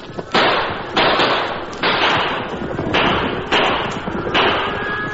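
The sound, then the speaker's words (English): Gunshots fired over a stampeding cattle herd to turn it back onto the trail: six loud, evenly spaced reports, each trailing into a rough wash of noise over a low rumble. “Shoot over the herd. Gotta get them back on the trail.”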